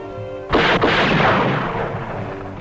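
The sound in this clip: Guns go off on their own with two sharp, loud reports in quick succession, followed by a long rumbling decay that fades gradually.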